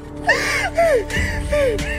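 A woman gasping for air after being choked, rolling over as she recovers: a few ragged, strained breaths with voiced, whining edges, each rising and dropping in pitch, fairly loud throughout.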